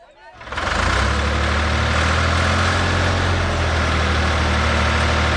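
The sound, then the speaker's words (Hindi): A tractor engine starts and settles into a loud, steady idle, with a deep rumble and a continuous throb that holds evenly to the end. “Tractor.”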